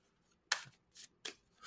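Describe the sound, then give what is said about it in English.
Tarot cards being shuffled by hand: a few short, crisp papery bursts, faint and separated by brief pauses, with no talking. “So I'm just shuffling the cards here. First card of the year.”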